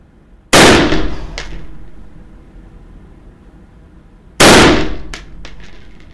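Two loud shots from a loaded rifle, each a sharp crack with a long decaying tail, spaced about four seconds apart, with no talk between them.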